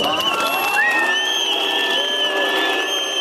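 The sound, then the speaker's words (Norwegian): A crowd boos and whistles at a 2013 May Day event in Aarhus: shrill, sustained whistles ring out over a loud, unbroken roar of jeering voices. “Pipekonserten under 1. mai-arrangementet i Århus i 2013 var øredøvende.”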